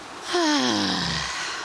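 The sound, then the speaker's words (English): One long, deep cleansing breath is released with a voiced, breathy sigh whose tone slides downward in pitch over about a second before trailing off. “let's take a deep breath together, shall we? A deep cleansing breath in. And release it with sound.”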